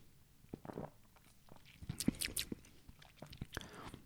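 Faint wet mouth sounds of someone taking a sip of kefir, with several soft slurping and swallowing clicks scattered through quiet.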